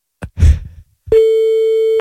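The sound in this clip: A telephone line tone sounds while calling someone back: one steady, clear beep of about a second follows a short muffled burst of noise.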